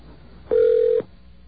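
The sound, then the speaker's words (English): A single electronic telephone tone as a mobile phone call on a cellular network is dialed: one steady, mid-pitched beep of about half a second, sounding alone against a faint background hiss. “I will now attempt to call you.”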